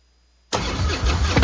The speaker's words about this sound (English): This is the sound of a popular American motorcycle.